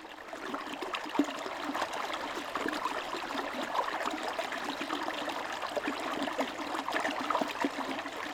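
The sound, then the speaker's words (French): Small tributary of the Allier river in Haute-Loire, the Allier itself feeding the Loire, flowing steadily: a faint, continuous babble and trickle of water with small gurgles and no voices. “Ce que vous entendez là, c'est la musique aquatique d'un petit affluent de la rivière l'Allier, qui est lui-même un affluent de la Loire.”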